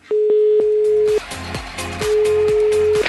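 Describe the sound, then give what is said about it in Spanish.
Telephone line tones sound as a call is placed to an institute: a steady, mid-pitched tone broken by sharp clicks, then a pause and another steady tone with further clicks, with no voices. “Mejor llamemos al Instituto Milford. Llamemos al Instituto Milford. ¡Qué caray! A ver si contesta.”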